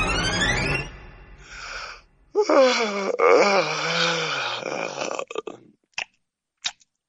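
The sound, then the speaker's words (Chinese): A big, bored yawn from a man seated at an interrogation table: a long, drawn-out groaning yawn with falling pitch, then a breathy, voiced moan that fades into a few soft clicks. “吴维涵打了一个大大的哈欠，一副百无聊赖的模样”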